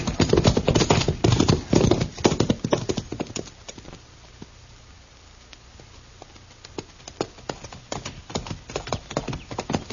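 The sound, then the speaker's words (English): Horses' hooves clip-clop as riders head back to a ranch: dense, rapid hoofbeats that thin to near silence midway, then sparser, irregular beats return. “Come on, we'll ride back to Stanley's ranch.”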